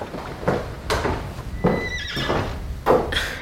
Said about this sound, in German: Es sind doch nur Lady Catherine und ihre Tochter in ihrer Kutsche.